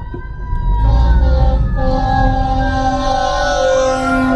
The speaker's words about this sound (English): I'll see you in the next episode as the fire truck goes by.